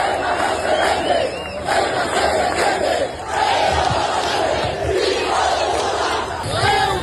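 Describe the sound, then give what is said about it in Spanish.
A large crowd chants in unison at a rally in support of Ceuta held for the Día de la Ciudad Autónoma, a loud, continuous roar of rhythmic voices with no letup. “Estos son algunos de los cánticos que se escucharon.”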